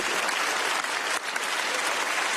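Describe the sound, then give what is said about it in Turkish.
Standing ovation for von der Leyen and Canadian Prime Minister Carney: dense, unbroken applause from a large crowd, a steady wash of clapping held at an even level with only a brief dip midway. “Bu sözlerin ardından von der Leyen ve Kanada Başbakanı Carney ayakta alkışlandı.”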